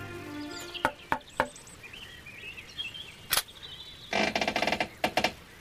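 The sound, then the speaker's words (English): Knocking on a farmhouse door: a few sharp raps spaced apart, then a denser burst of knocks, with faint bird-like chirps in between. “I'll try knocking on the door and see what happens.”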